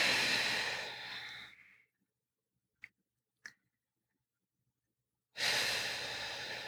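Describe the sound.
Slow, deep breathing by someone sitting up tall with palms open: a long, loud rush of airy breath, then a silent pause broken by two faint clicks, then another long breath.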